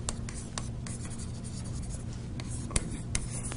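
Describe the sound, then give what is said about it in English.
Marker or chalk scratching on a board during a lecture on Huffman codes, a steady run of dry scraping strokes punctuated by a few sharper taps near the end. “I'll write that up there.”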